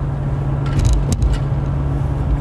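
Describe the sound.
A car being driven, heard as a steady, loud, low engine and road rumble with a few brief higher rattles and clicks near the middle; no talking.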